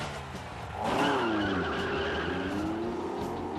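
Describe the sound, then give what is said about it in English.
Tires of a racing car squeal in a long skid during time trials, a wavering high screech over a rumbling engine that swells early and then holds steady, with no voices. “Number 37, Enzio Bodoni, driving his lean, mean, corrugated racing machine.”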